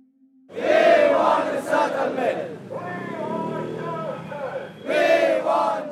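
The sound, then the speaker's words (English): Hunger-striking protesters chant in unison outside UNHCR headquarters: loud shouted phrases from many voices, a lower sustained stretch of chanting in the middle, then another loud burst of shouting at the end. “We are here in front of UNHCR headquarters. Already start hunger strike and we chant.”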